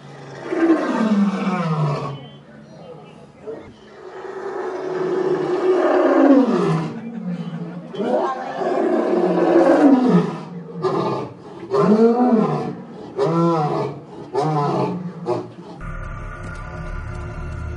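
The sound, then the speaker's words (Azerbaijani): A lion roaring: a series of deep, powerful roars, each swelling and fading in pitch and loudness, separated by short pauses and trailing into shorter grunting calls. “Alimlər düşünürlər ki, aslanlar nərildəyərkən bir-birlərinin yaşını, sağlamlığını və hətta özünü müdafiə edib edə bilmədiyini başa düşürlər.”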